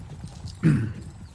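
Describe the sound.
Horse hooves clopping as a rider arrives at a house in a fantasy tabletop role-playing game: a single short burst of hoof sounds midway through, after quiet.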